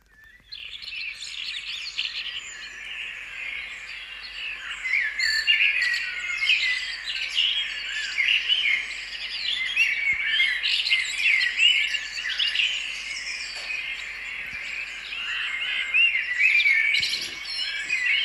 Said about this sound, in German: Also doch eine Amsel, glaube ich, erkennt man schon. Jeden Morgen habe ich gerade dieses Vogelkonzert.